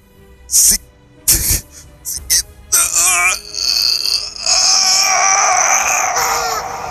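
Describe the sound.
A person sobs after a friend's death: a few short, choked bursts, then a long, loud, high wavering wail that keeps going to the end.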